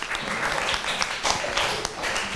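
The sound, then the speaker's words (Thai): A class applauds a group of students: dense, continuous clapping from many hands at an even level throughout, with no talk over it. “ปรบมือให้กลุ่มที่4หน่อย”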